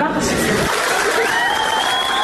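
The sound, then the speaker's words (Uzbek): Participants in a video meeting applauding a student, a steady wash of clapping heard under a speaking voice, fairly loud and unbroken. “Video yig'inining boshqa ko'plab ishtirokchilari talaba qizning so'zlarini qarsak bilan qutlashgani aks etgan.”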